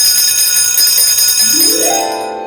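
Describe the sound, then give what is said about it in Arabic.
A school bell rings continuously in a classroom, giving a loud, steady metallic ring that holds for the whole stretch with no voices over it. “إنه الجرس.”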